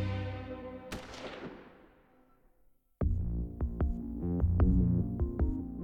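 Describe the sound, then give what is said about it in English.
A single sharp gunshot from a pistol drawn from a coat pocket, followed by a long ringing decay that fades out before music with punchy percussive hits comes in. “He drew his gun from his coat pocket and just as Martha turned, he fired.”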